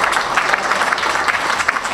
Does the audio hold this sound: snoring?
no